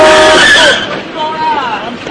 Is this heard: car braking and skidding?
yes